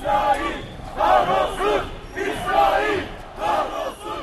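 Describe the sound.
A Turkish soccer crowd in Istanbul chants loudly and hostilely at a visiting Tel Aviv team. The massed voices rise and fall in about four rhythmic surges.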